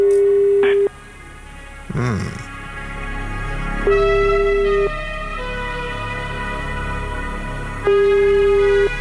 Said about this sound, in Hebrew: בואי נתקשר אליה.